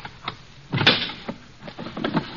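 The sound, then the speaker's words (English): A locked drawer is forced open with a series of knocks, rattles and scraping jolts, and a louder wrenching burst near the middle. Several smaller thumps follow in an uneven rhythm. “Now, why would you keep this drawer locked, Deemsy, old boy? Let's just force it open.”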